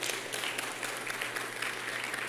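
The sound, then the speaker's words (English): Audience applause during a speech marking the 60th anniversary of the "I Have a Dream" speech, a dense, steady patter of many hands clapping at moderate loudness with no talk over it. “we can clap that up. That's phenomenal.”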